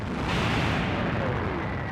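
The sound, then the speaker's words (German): Heavy British artillery shelling German positions at the Somme in 1916 forms a dense, continuous low rumble of overlapping blasts. It stays loud and steady, with no separate shots standing out. “Die schwere britische Artillerie nimmt die deutschen Stellungen unter Beschuss.”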